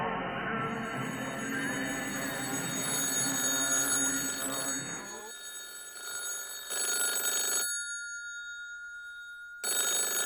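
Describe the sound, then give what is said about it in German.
A telephone rings in repeated short bursts of a fairly quiet, bright electronic trill, with gaps between rings and no voices. “Gewartet, dass das Telefon klingelt.”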